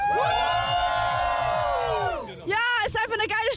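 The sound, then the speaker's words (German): A festival crowd cheers at a hot summer event beside a lake in Cologne. A loud, sustained whoop gives way to a burst of many overlapping shouts and cries. “Also ihr hört's, die Stimmung hier beim Rainbow Festival in Köln am Fühlinger See ist richtig klasse.”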